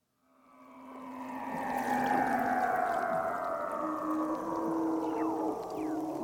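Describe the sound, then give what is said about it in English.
A Weddell seal vocalizing underwater in the Antarctic produces long, eerie whistling sweeps that glide downward in pitch, mixed with shorter chirps. The call swells in quickly and then stays loud and steady. “Okay, this is a Weddell seal. A Weddell seal lives in the Antarctic, and it's a cute little critter. And listen to its voice.”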